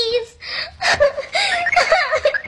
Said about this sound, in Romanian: Ei, nu mai plânge. Uite ce ai făcut. Din lacrimile tale s-a adunat întâi o baltă și acum s-a făcut un ocean.